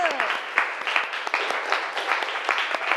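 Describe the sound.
Students in a classroom clap their hands in a lively, irregular burst of sharp claps that stays fairly loud, with a voice briefly audible at the start.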